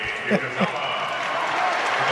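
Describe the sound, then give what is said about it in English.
Crowd cheering at a basketball game as fans rise to their feet for a player, a dense, steady roar of many voices with a commentator talking over it. “People rising to their feet to cheer for Clay for standing up.”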